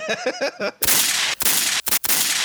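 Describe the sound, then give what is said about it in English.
Gunfire in a video game breaks out after a short spoken phrase, a loud, harsh burst of dense noise that runs on with a couple of brief breaks. “Oh, so that was shots at me”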